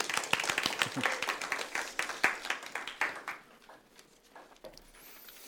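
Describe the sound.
An audience at a church service applauds to welcome a guest preacher, with dense, lively clapping that thins and fades out over the last couple of seconds.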